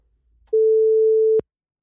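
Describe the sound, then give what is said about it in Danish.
A telephone ringing out while radio hosts call a listener: one steady, mid-pitched ringback tone lasting under a second, ending in a sharp click and then silence. “Vi prøver at ringe til en lytter.”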